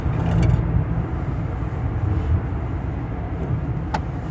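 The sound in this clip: Steady low engine and road rumble from a car cruising in fifth gear, a constant droning roar without pause or voices.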